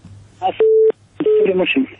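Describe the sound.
Telephone line tones sound as a listener's call connects on a radio call-in show: a steady electronic beep, then a second tone, with people talking just before, between and after.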